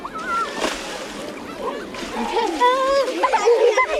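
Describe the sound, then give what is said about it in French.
Young schoolchildren splash and wet one another on a shallow water-covered plaza in Bordeaux city centre. Irregular sloshing and splatters mix with lively children's voices and shouts throughout. “Il y a quelqu'un qui s'assoit et il y a quelqu'un qui mouille les autres.”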